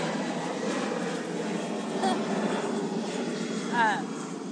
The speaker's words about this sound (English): That was the airplane above us because Liberty Station's across the pond from the airport.